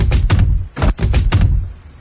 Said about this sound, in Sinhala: ඉක්මන් කරමු. යමු. අර දොර කඩමු.